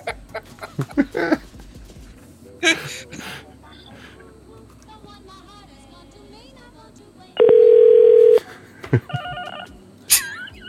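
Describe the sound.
Telephone tones amid conversation: a loud, steady tone lasting about a second, followed by short dual-pitched dialing beeps, with scattered clicks and people talking around them.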